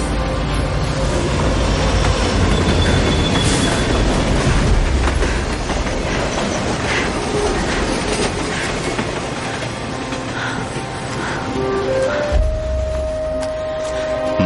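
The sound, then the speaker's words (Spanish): A train passes on a nearby track with a loud, steady rumble and a continuous clickety-clack of the wheels over the rails. The noise stays dense and heavy from start to finish. “Un tren pasa por la vía cercana.”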